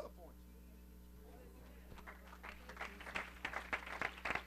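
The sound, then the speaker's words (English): A church audience claps during a service. A voice is heard at the start, then the clapping begins faint and grows steadily louder and busier over the second half. “Would you keep clapping for Jesus?”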